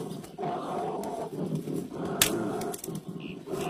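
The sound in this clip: An angry bear roars in a low, rumbling growl that holds steady for a few seconds and keeps a rough, throaty texture throughout.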